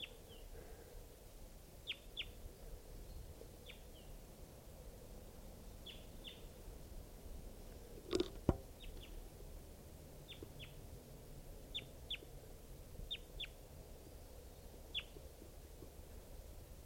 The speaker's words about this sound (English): this is a wild crossbill.